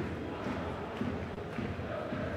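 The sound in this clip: A football stadium crowd at Alvalade during a Sporting versus Arouca match, a continuous, dense roar of many voices that stays fairly even throughout.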